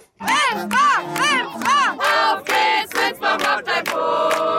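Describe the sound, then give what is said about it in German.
Crowd on the fairground at the Winsbach Kirchweih in the afternoon, several voices yelling loud, pitched calls in rhythmic bursts that run into a sustained cheer. “So klang's am Nachmittag auf der Winsbacher Kerwa auf dem Kirchweihplatz.”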